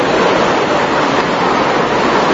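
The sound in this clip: Heavy rain falling outdoors, a loud, dense, steady hiss that holds without pause or change in level throughout.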